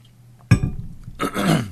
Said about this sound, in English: Excuse me, I got to take a drink.